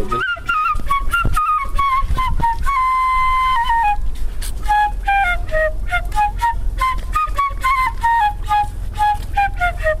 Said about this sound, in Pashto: دلته که دی فکر له لرې د شپېلۍ غږ اورېدل کېږي